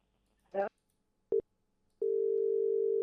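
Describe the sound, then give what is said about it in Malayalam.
A telephone tone sounds after a call line is cut. A brief voice is followed by one short beep, then a steady, loud, unbroken tone holds to the end. “Line കട്ടായി പോയി തോന്നുന്നു.”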